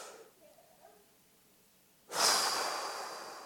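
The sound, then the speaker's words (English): A slow deep breath taken as a calming exercise: a faint, soft inhale, then a sudden loud, airy exhale that holds and gradually tapers off. “Just a deep breath. I call it 5 in, 5 out. Count for 5.”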